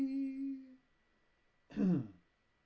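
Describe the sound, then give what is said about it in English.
A person deliberately clears their throat in an exaggerated way: one rough, gravelly burst near the end, after a brief hummed tone and a short pause. “You have to do the classic Goldie throat clear.”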